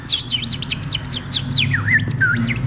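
A person imitates a little bird chirping with quick, high, swooping tweets that rise and fall in a continuous run of short notes, heard over a low background rumble.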